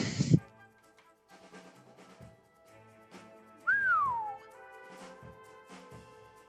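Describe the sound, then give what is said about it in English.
A person gives a single short, clear whistle that slides downward in pitch, heard over a quiet background with a few faint clicks. “I'll skip around him, and I'll reach out and touch him and give a little whistle, and he'll take 15 necrotic damage.”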